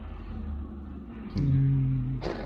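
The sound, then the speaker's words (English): A car passes by: a low engine hum swells partway through and holds, and a brief noisy burst follows near the end. No one speaks. “I assume that was a train, but it must have been a car. It sounded more like a car.”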